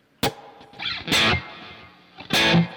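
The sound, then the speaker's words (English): Distorted lead electric guitar played with a little delay and reverb, the delay set near 660 milliseconds so one or two faint repeats trail each note. A few short, bright phrases ring out with pauses between them, and no voice is heard. “what I'm going to do right now is I'm going to turn on just a little bit of delay and reverb.”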